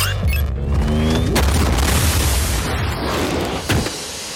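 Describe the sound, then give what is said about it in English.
Film gunshot from a futuristic pistol firing a high-explosive round that blows apart a judge's head, heard as a loud, dense rumbling blast with a few sharp impacts punching through a sustained booming roar. “And he turns around the corner and shoots the gun and fucking explodes the judge's head.”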